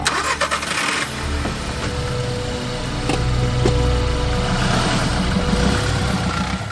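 A car engine starts as the driver leaves: a few brief clicks and a crank, then the engine catches and hums steadily, swelling a little louder partway through, with no voices.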